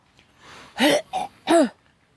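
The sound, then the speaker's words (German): A person clears their throat after inhaling a small piece of candy. A soft breath comes first, then a few harsh, rasping bursts in quick succession, heard alone without talk. “Mir ist gerade beim Einatmen ein kleines Stückchen Bonbon in den Rachen geflogen.”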